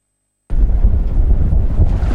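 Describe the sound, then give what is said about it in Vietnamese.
Wind buffets the microphone on the deck of a navy ship at sea in southwestern waters, a steady loud low roar that begins abruptly after a short silence and holds without pause. “tôi đang đứng trên boong của một con tàu thuộc vùng Nam Hải quân giữa cái nắng rực rỡ của vùng biển Tây Nam”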